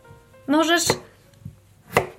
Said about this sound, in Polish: Kroję ziemniaki.